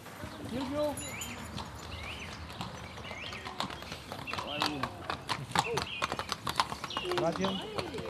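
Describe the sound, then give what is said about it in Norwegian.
Two strong draught horses pulling an open carriage at a museum in Romania, their hooves clip-clopping in a steady run of many strikes, with birds chirping and voices in the background. “Her kommer det en åpen vogn trukket av to kraftige arbeidshester.”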